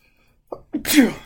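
A single loud sneeze, a quick sharp intake followed by an explosive breathy burst that trails off, heard on its own.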